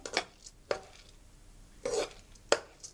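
A utensil stirs coconut milk with sticky rice in a pan, giving a few sharp scraping clinks against the metal separated by quiet gaps, with no talk.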